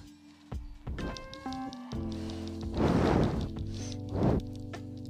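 A perfect shield parry lands in a video game as two heavy, crunching thwacks, the first longer than the second, over a steady tonal musical drone.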